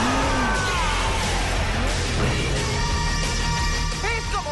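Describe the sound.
A car engine roars as it starts and accelerates, a loud, continuous revving drone that fills the whole stretch with little letup.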